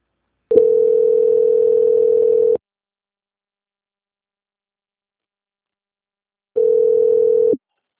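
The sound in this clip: Two long, steady telephone line tones, each lasting about two seconds and separated by a silent gap of about four seconds, heard while a bank call is put on hold for transfer.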